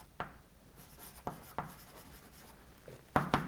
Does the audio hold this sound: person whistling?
no